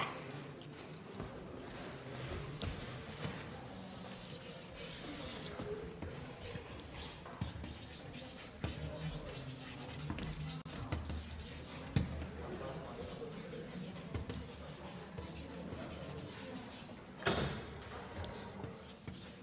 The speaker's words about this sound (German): Das schreibe ich nochmal hin.